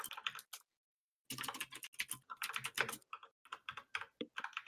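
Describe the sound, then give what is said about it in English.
Typing on a computer keyboard as a web search is entered: faint, quick clusters of key clicks, a short pause, then more rapid bursts of keystrokes. “Just type in John Travolta ponytail movie.”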